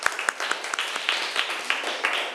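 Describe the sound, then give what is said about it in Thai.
Students in a classroom clap for themselves, giving scattered, fairly rhythmic claps with sharp attacks, moderately quiet and lasting throughout. “ถูกต้องค่ะนักเรียนเก่งมากปรบมือให้ตัวเองหน่อย”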